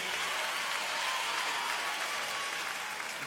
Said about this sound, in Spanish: Fuerte el aplauso, por favor